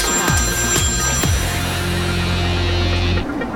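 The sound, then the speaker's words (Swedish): A mobile phone ringtone in a radio studio: a loud electronic ring with a few quick falling tone notes at the start, then a sustained buzzing tone that cuts off abruptly near the end, with no talk. “det ringer här på telefonen på mig. Kan du inte bara stänga av den då?”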